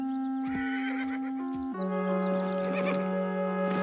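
A trapped pony that cannot get out whinnies over sustained musical tones, with a few knocking hoof-like clops mixed in.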